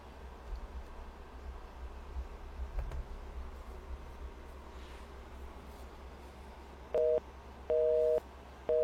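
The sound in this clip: A telephone busy signal: a steady electronic beep pulses a few times near the end, after a stretch of faint hiss and light tapping.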